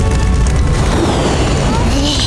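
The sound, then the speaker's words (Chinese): A magic gourd bursts with exploding spiritual energy, a loud, sustained rumbling boom with a dense, roaring body that holds steady and unbroken for the whole stretch. “要炸了！要炸了！”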